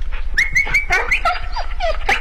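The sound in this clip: A dog whimpers and whines in a run of high, wavering cries, some rising and falling, fairly loud and steady with no talk.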